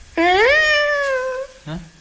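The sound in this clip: A cat meowing: one long, drawn-out meow that rises slightly and then holds steady, followed by a short, lower second call.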